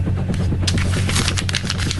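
Crumpling a sheet of paper in a studio: dense, continuous crackling and rustling with many sharp little snaps, steady and fairly loud throughout.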